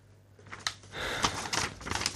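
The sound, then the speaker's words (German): Crinkling and creasing of a sheet of paper being folded, a few soft rustles and a sharp crackle that swell into a louder, continuous papery crackle. “Ich falte es jetzt zusammen.”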